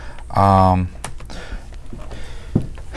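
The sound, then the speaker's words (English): Keys click on a computer keyboard as a search is typed, a few scattered taps heard alongside a voice. “we just typed in Disney, the Ultimate Disney Christmas Package. Yeah, I just Googled it.”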